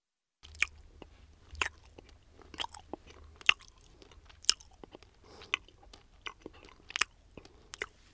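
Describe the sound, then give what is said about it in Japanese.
Chewing gum in the mouth gives quiet, wet smacks and sharp clicking bites that repeat irregularly throughout, with no voices. “何を食べているんですか？ ガムです。 あなたの国ではガムを噛みながら先生の話を聞いてもいいんですか？”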